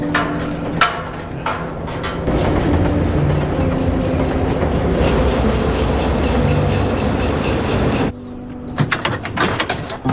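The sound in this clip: A train pulls into a station with a continuous rumbling, clanking mechanical din that holds steady for several seconds, then drops abruptly and is followed by scattered sharp clicks and knocks.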